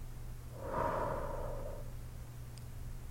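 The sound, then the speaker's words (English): One slow, deep breath in and out, a single airy swell of breath lasting about a second, heard alone against a faint low hum. “Deep breath in. Hold. And out.”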